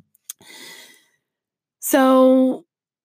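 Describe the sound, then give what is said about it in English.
A deep breath in and out during a relaxation exercise for easing stress. A soft, airy inhale comes after a couple of small clicks, then a pause, then a louder, voiced sighing exhale that hums steadily for about half a second. “So just take a breath in and take a breath out”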